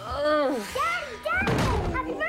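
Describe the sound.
A door bursts open with a sudden heavy thump as someone rushes in, a single loud impact that cuts in between talking voices.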